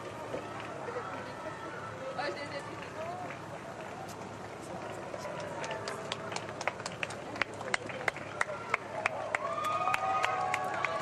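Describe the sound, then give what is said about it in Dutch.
A crowd lining the street as the Pope passes: a busy hubbub of voices with scattered clapping and cheers that swell louder toward the end. “En u hoort natuurlijk ook nog de mensen die zich ofwel aan de rand van de straat al hebben opgesteld, of misschien toevallig zien dat de Heilige Vader passeert.”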